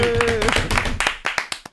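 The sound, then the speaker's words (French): Brief hand clapping in a radio studio as the station's technician is welcomed, overlapping voices at first, then a few sharp, separate claps ringing out alone toward the end. “Oui, applaudissements pour Jason.”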